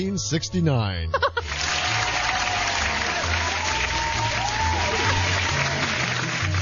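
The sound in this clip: Studio audience applause and laughter: a short burst of voiced laughter opens, then dense, even clapping of many hands holds at a steady level to the end.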